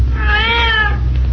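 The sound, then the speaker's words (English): A single cat meows once, a drawn-out tonal cry lasting about a second, over a constant low hum. “That's one of the cats, all right.”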